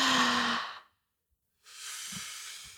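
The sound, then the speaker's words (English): Breath drawn in through the mouth as a soft, airy rush, followed after a brief silence by a second, slightly quieter breath. No voices are heard. “So like right now, take an inhale just through your mouth.”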